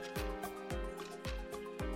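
Someone drains a drinking glass in four deep, steady gulps, each a low swallowing thud spaced about half a second apart.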